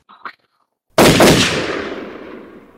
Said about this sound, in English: Oh, shit. What the hell? They just shot another guy.